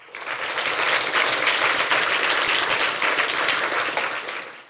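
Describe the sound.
An audience applauds to welcome a speaker with loud, dense, even clapping that holds steady throughout and then tapers off at the close.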